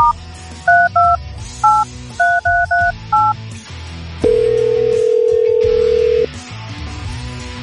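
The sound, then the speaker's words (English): Telephone keypad dialing tones: a quick run of short, bright dual-pitch beeps in an uneven rhythm, followed by one long, steady lower tone, then quiet background sound. “Okay, here we go again. We're dialing.”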